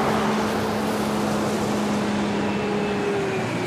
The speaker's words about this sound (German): da höre ich im Verkehrslärm den Motor des 12-Tonners starten.